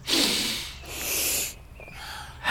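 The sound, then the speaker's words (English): A deep breath drawn in through the nose, heard as several airy, hissing sniffs of inhaled breath that swell and fade, with no talk. “Take a deep breath.”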